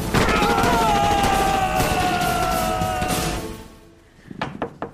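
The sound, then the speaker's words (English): Heavy gunfire in a shootout: a dense, continuous barrage roars for about three seconds, then thins out and fades, followed by a few sharp separate shots. “I phoned as soon as I heard the shooting.”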